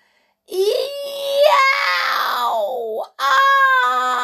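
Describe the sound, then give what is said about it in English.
A voice acts out a terrible scream in a packed school lunchroom: one long wailing cry that climbs and then sinks, breaks off briefly, then a second loud, high cry follows. “a terrible scream echoed through the packed lunchroom.”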